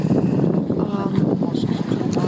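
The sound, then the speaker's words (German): Strong wind and choppy waves during a sailing trip in New Zealand, heard as a steady, loud, low rushing roar with wind buffeting the microphone throughout. “Und stattdessen ist es halt leider ziemlich windig und auch sehr wellig.”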